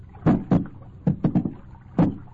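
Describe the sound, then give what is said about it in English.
Oars work a boat on a river, moving slowly toward floating fresh-cut logs: a few irregular knocking splashes, loud and short, with quieter water wash between strokes and no voices. “Slowly, stealthily, they begin to row toward the fresh-cut logs floating on the surface.”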